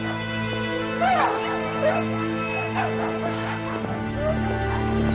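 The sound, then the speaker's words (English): Several dogs whimper from shelter kennel cages, giving thin, high, wavering whines a few times over a steady low droning background. “They look into various cage dogs. Several of the dogs whimper as they pass.”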